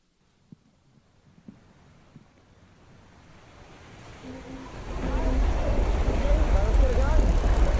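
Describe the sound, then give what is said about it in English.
Racing sailboats on the water during the America's Cup: a few faint clicks over quiet background, then rushing water and wind swell into a loud, steady roar that lasts to the end. “I want to show you guys a video that's a clip from the America's Cup. This is a race that's held every single year”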